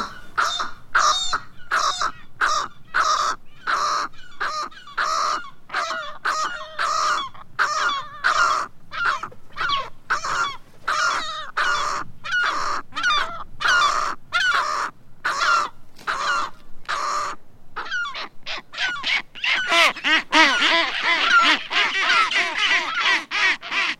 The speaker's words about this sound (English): the skuas are trying to keep the gull off